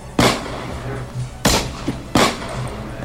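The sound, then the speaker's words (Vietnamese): Three sharp gunshots from a handgun, fired in quick succession during a fight. Each is a loud, abrupt crack, unevenly spaced, over a steady noisy background. “3 phát được bắn ra liên tiếp.”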